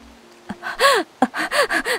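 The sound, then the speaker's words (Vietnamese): A woman panting heavily as she crawls toward a door: a series of ragged, voiced gasping breaths, each one short and strained, with uneven pauses between them and no speech. “Cô thở hổn hển gọi tiếp.”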